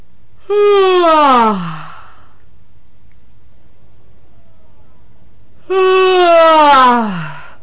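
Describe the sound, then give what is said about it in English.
Two good, full yawns from patients, each a loud, drawn-out voiced breath whose pitch slides steadily downward, separated by several seconds of silence. “Now from the patient tapes, first some examples of very acceptable good yawns from the patients.”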